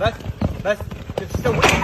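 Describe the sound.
Horse hooves clip-clop as a rider moves along at an Arabian horse show, quick uneven clops mixed with voices.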